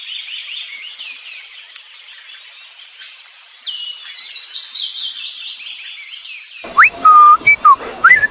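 A 63-year-old man whistles in imitation of birdsong with continuous rapid, high warbling chirps and trills. Near the end come a few clearer, louder whistled notes.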